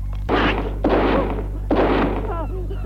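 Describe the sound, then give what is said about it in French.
Rifle shots in a courtyard: three loud, sharp blasts spaced unevenly, each trailing off in a short decaying tail. “Il vise et tire.”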